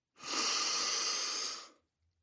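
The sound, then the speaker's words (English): A single long, deep breath drawn steadily and released, heard as a smooth, even breathy rush that lasts under two seconds and then stops, with no other sound around it. “First, let's take a deep breath.”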